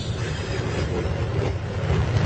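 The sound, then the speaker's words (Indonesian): Inside a moving train carriage with only a handful of passengers, a constant low rolling rumble drones on, with faint rattles over it and no talk. “aku langsung masuk ke gerbong kereta. Di dalam gerbong kereta yang aku tumpangi ini,”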